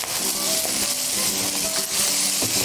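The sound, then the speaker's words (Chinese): Bell peppers, yam and wood ear fungus stir-frying over high heat, with a little salt and sugar tossed in, give a steady, even sizzle that holds throughout. “开大火翻炒1分钟左右，随后撒入少许的盐、糖，快速的翻炒，”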